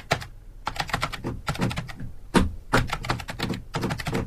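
Typing on a computer keyboard as someone sorts out a computer during a radio show: many quick plastic key clicks in dense bursts separated by brief pauses, clear and alone without talk.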